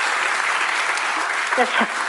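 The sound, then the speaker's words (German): Studio audience applause, a broad, even roar of clapping that runs the full length. A voice rises briefly above it toward the end. “Und damit du mir das glaubst, kriegst du jetzt einen großen Applaus.”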